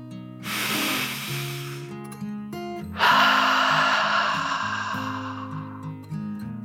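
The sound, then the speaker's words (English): A slow, deep breath in and then out over a soft, sustained musical backing: two airy rushes of breath, the second starting louder and lasting longer before easing off. “With that grateful thought, Dragon took one last deep dragon breath in and out.”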